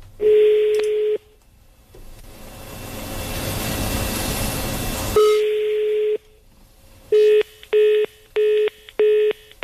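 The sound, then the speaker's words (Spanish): Telephone tones as a call is diverted: a steady, even tone, then a long stretch of hiss, the tone again, and finally a series of short, evenly spaced beeps. “Desvió la llamada.”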